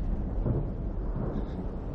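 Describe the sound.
Thunder during a storm, a faint, continuous low rumble rolling without a break across two seconds, with no sharp crack standing out.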